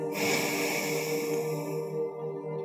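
A single long exhale through the right nostril during yoga breathing, a steady airy rush that lasts a couple of seconds before tailing off.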